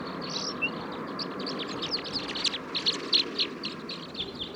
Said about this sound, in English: Here's a song of one of the males.